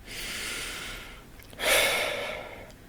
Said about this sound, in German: dann schließt du einfach mal die Augen und nimmst einen ganz tiefen Atemzug